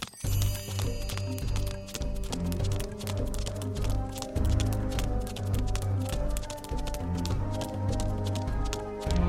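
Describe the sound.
Running footsteps in a radio play make a rapid, steady patter of many footfalls that keeps an even rhythm throughout.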